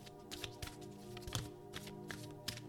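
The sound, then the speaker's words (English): Oracle cards from a moon-themed deck being shuffled and drawn: several crisp, short card flicks and taps at irregular intervals, fairly faint, with no voices. “Give me 2 more Moonology cards.”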